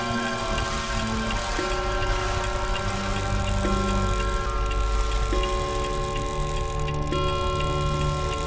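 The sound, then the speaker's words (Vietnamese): A wall clock ticks steadily with an even rhythm of light, regular clicks over a constant, humming tonal background. “Thứ duy nhất còn hoạt động trong căn phòng này chính là chiếc đồng hồ treo tường. Tiếng kim dây chuyển động khiến tôi đưa mắt lên nhìn”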